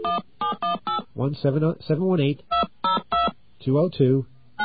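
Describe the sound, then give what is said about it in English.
Touch-tone telephone dialing: a rapid series of short keypad beeps at differing pitches, separated by brief gaps, with a voice speaking between and over some of them. “you're going to hear a dial tone. Don't panic. We're just going to try something here. All right, let's get our dial tone, and we're going to dial”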